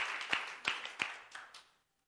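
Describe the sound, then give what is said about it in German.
Clapping during a church sermon as the audience is urged to applaud God: five sharp, evenly spaced claps that gradually soften, then silence. “Gib doch mal Gott einen Applaus, dass das möglich ist.”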